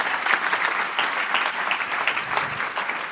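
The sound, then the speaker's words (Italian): Loud, dense audience applause at a church service, a continuous crackle of many hands clapping without a pause from start to end. “Facciamogli un applauso meraviglioso.”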